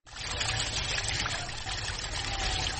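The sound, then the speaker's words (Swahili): Hot spring water trickling at the Maji Moto spring in Maji Moto village, Lunga Lunga, Kenya, near the Tanzanian border: a continuous, even, bubbling flow that starts abruptly and holds steady. “Chemichemi hii ya Maji Moto yapatikana kijiji kiitwacho Maji Moto. Hapa ni eneo la Lunga Lunga, karibu sana mpaka wa Kenya na Tanzania.”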